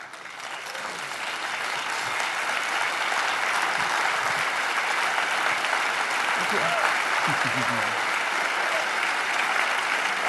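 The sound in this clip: Sustained audience applause welcoming speaker Jan Markell, a dense, loud roar of many hands clapping that holds steady for the whole stretch, with faint voices briefly audible within it.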